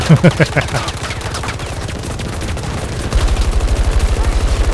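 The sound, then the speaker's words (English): Gunfire in a video game shooter, with rapid bursts of shots at the start, then a dense, noisy stretch before a steady, fast string of automatic fire runs loudly to the end. “I just keep shooting and then jumping back on the reload.”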